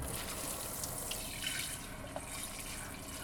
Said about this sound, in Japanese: ザブザブ、すすいで、すすいで、